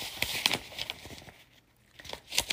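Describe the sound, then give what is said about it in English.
Papers being shuffled by hand, heard as soft rustling and crinkling in quick, uneven bursts. The sound is fairly faint, with a brief quieter lull in the middle before the crinkling picks up again. “You're hearing me shuffle papers.”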